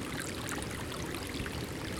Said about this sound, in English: Little Scott and Howe Creek is the water source for Wildcat Falls.